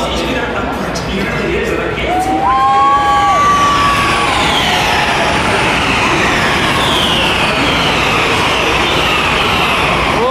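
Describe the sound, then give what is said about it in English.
Formula E electric race cars whine past on the start-finish straight of a race, their high tones sliding downward in pitch, over a loud, continuous wash of crowd noise. “you go to motor races, you do hear crowd, but not quite as clearly as you do in a Formula E race. Here we go, listen. It comes on to start finish straight now.”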